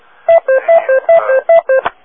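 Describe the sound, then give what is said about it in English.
Beeps from a ham radio: a rapid run of short, evenly spaced tonal bleeps alternating between two pitches, loud and alone. “maybe a 2 kilohertz beep there. I don't know why that happened. I had a funny sound.”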